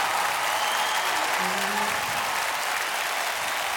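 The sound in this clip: Audience applause after a performance at a Punjabi stage event: thick, continuous clapping at a fairly even level, with a faint voice briefly showing through midway.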